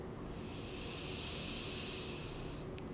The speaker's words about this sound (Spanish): Inhala.